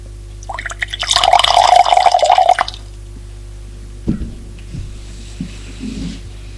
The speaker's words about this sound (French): Prend le verre qui sert à se rincer la bouche. Le remplit d'eau.